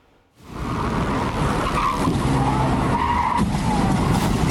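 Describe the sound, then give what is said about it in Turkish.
Loud tire skidding and car noise in traffic in Sarıyer, Istanbul, recorded on a helmet camera during a crash in which a car struck an elderly pedestrian; a sustained roar runs unbroken from start to end, with no distinct impact. “Feci kaza kask kamerasına yansıdı.”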